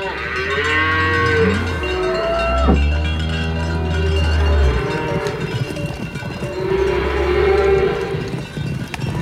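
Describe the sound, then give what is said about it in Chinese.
A herd of cattle driven charging down a hillside gives deep, drawn-out overlapping moos over a steady clanking of cowbells that continues throughout. “就在西克汗搞不清楚状况下，莫格里让牛群往山坡下的壕沟里冲过去，活生生的把西克汗踩死了。”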